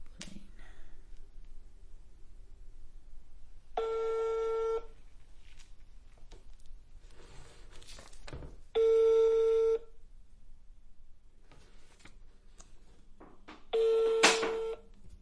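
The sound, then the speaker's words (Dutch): A phone's ringback tone plays while a call is placed to a friend about a football special: three long, steady, evenly pitched tone bursts several seconds apart, over faint background noise. “Ik ga bellen met Michael dat hij het stelt op de specials, op de voetbal.”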